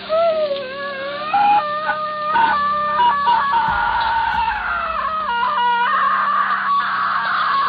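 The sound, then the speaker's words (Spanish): A woman's scream of terror as a consecrated host burns her forehead in a Dracula horror drama: a high, drawn-out, wavering shriek whose pitch keeps shifting, sustained loudly through the whole clip. “Se produjo un grito de terror que casi heló la sangre en nuestras venas.”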